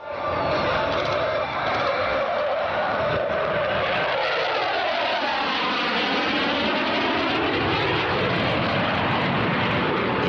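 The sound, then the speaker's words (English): U.S. Navy Blue Angels jets roar at an air show. The loud, continuous thunder carries a whooshing pitch sweep as an aircraft passes. “This is what a U.S. Navy Blue Angels air show sounds like.”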